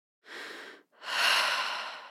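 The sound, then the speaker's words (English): Human breathing in two quiet, airy breaths. The first is shorter and softer, and the second is longer and stronger, with no talking. “But as soon as we start paying attention to our breaths,”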